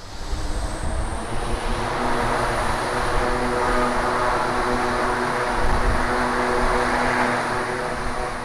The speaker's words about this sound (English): Well, Rob, how can you dare say that any aircraft is too loud?